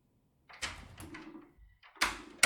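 A door being opened for a visitor, with a short run of quiet clicks and rattles of handling that turn louder and sharper near the end.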